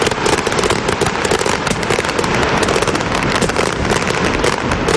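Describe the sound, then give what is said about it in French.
A fireworks display erupts all at once in loud, dense crackling and popping. The rapid bursts go on without a break, and no voices can be made out. “C'est ici que les feux d'artifice ont commencé. Ils faisaient le décompte, 3, 2, 1. Et là, tu vois vraiment, là, tout éclate.”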